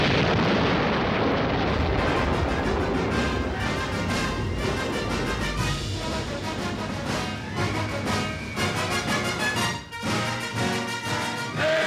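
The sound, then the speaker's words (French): An atomic bomb explosion in a Cold War-era propaganda film: a loud, sustained roaring blast with crackling rumble throughout, steady for nearly twelve seconds with one short dip near the end and no voices. “Il n'y a qu'une arme qui arrêtera les Martiens. La Maison Blanche vous confirmera l'ordre d'utiliser la bombe atomique. Attention, abritez-vous.”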